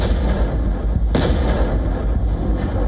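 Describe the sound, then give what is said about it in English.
A bomb blast from a roughly 3-ton Soviet-era FAB-3000 bomb tearing through trenches, bunkers and buildings: a loud, dense, continuous rumbling roar with one sharp crack near the middle. “Just a devastating blast that tears through trenches, bunkers, and buildings, leaving behind a crater where a defensive position once stood.”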